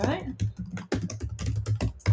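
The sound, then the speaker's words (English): Quick, irregular clicks of typing on a computer keyboard run beneath people talking. “And then the name of the podcast is, type it in. I'll type it again.”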